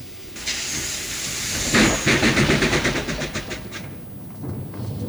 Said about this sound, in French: La locomotive lança son sifflet poitrinaire et s'interrompit aussitôt